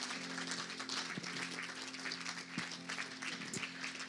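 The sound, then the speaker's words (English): Audience applause at a Mother's Day talk event, with steady, dense clapping that holds at an even level throughout and has no voices over it. “Let's give Tracy a hand.”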